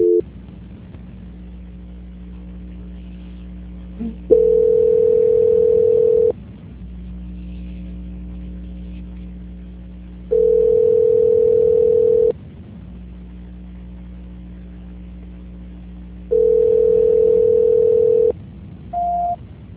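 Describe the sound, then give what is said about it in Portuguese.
Telephone tones play while a call is being transferred. Three steady, mid-pitched beeps, each about two seconds long, are spaced several seconds apart over a constant low hum, and a short, higher beep closes the sequence. “Só um minuto, por gentileza, que eu vou transferir a ligação.”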